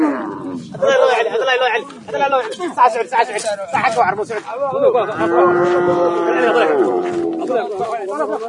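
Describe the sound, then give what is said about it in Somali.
Cattle lowing at a busy livestock market in Buq Qable, Hiiraan, where cattle, goats and camels are traded. Many overlapping moos and bellows carry on throughout, mixed with crowd voices. “sawaxanka iyo shanqarta aad maqlaysaan waa saylada lagu kala iibsado xoolaha sida ariga lo'da iyo geela ee degmada buqa qable ee wilaayadda hiiraan waxaana hadda la kala gadanayaa lo'da”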